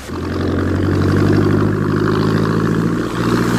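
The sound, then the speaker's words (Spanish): A motorboat engine kicks in at the start and runs on loudly in a steady, droning hum with a clattering edge, with no voices. “para horror de Eva, el hombre pez pone en funcionamiento el motor de la lancha”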